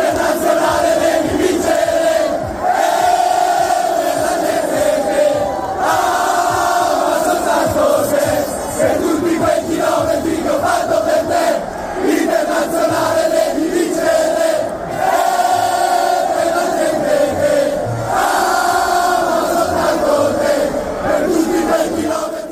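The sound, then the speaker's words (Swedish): Crowd of about 300,000 people celebrating Inter's Italian football title in the streets of Milan: a sustained, loud roar of many voices with shouting and chanting, dense and continuous throughout. “Och det lät så här på Milanos gator när 300 000 människor igår firade Inters titel.”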